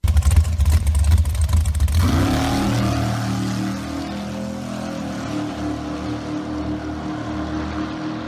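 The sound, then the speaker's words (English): A dragster engine revs at a drag racing experience, giving a loud, rough roar for about two seconds before settling into a steady, deep rumbling drone that continues to the end. “You spend about like $3.99, and you get to drive a dragster for the day with Frank Hawley. And it looks a little something like this.”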